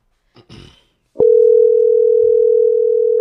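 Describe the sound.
A telephone dial tone sounds while someone calls back: a single steady tone holds for about two seconds after a couple of faint, brief noises.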